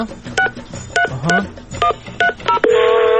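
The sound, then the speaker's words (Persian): Touch-tone keypad beeps sound as a telephone number is dialled, a quick, uneven run of short electronic tones, then a steady continuous tone takes over. “بذاری من شمارش رو بگیرم”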